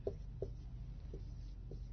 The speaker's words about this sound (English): I meant to draw a circle there instead of write it